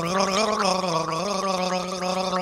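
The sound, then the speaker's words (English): A man gargles a tune for a comedy album ad. The bubbling, pitched gargle is loud and continuous, and its pitch wavers up and down as it follows a melody. “Marvel at the raw power of this, the greatest of all garglers gargling the hits in this multi-genre spanning album.”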